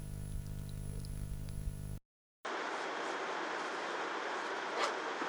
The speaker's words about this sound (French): Il est 7h du matin et nous sommes dans le train qui nous mène à la gare Saint-Lazare.